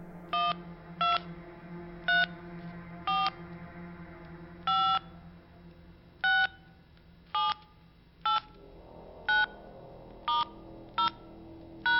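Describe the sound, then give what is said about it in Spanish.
Telephone keypad tones as a number is dialed slowly on a phone, about a dozen evenly spaced bright beeps over a steady low hum. “acercó una mano al auricular, marcando lentamente los 9 números que conformaban el teléfono de su novia.”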